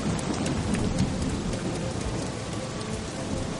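A thunderstorm pours dense, steady rain that hisses loudly and evenly, with a low thunder rumble underneath. No voices are heard.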